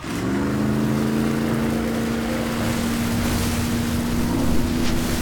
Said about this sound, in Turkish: İskele motorunu çalıştır. İkisi de çalıştı.